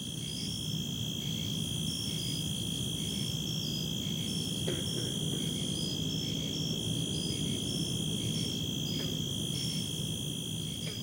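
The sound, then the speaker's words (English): Night ambience at a drainage basin between a store and a subdivision, dominated by a dense, continuous high-pitched chorus of crickets and insects with pulsing trills over a faint low background hum, no voices. “On this night, I came upon a drainage basin between a Target store and a subdivision,”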